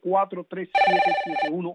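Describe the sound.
A telephone rings once in a radio studio, a bright electronic tone with stacked harmonics lasting under a second, set between short bursts of talking.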